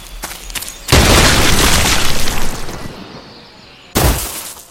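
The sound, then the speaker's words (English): A land mine explosion in a video game begins as a sudden loud blast with a crackling, shattering wash that decays over about two seconds. A second sharp, loud burst follows. “Now, I think to end this, I'm going to step on my own mine.”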